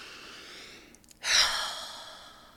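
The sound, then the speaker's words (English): One deep breath is taken, a long airy rush of air that swells quickly and then fades slowly over about a second, alone and with no talking. “First, take a deep breath.”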